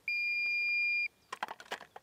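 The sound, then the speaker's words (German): A battery-powered fawn deterrent on a pole in a meadow, switched on and beeping: a steady high-pitched electronic tone lasting about a second, a stretch of faint clattering handling noises, then the tone starting again at the end. “Und jetzt piept es da so vor sich hin. Das ist jetzt aber dann nur jetzt am Anfang und das aktiviert sich dann in der Dämmerung.”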